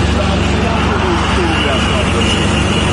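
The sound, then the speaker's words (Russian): Traffic jam of cars queuing at the Russian border crossing toward Georgia, a dense, steady roar of engines and road noise that stays loud and unchanging throughout. “А тепер давайте ще раз подивимося відео, зняте на кордоні з Грузією. Пробка перед російською границею в сторону Грузії.”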